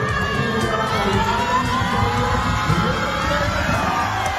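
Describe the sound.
Crowd cheering and shouting at a women's handball home game in Nykøbing Falster, where the team won bronze. A dense, steady roar of many voices continues without a break throughout.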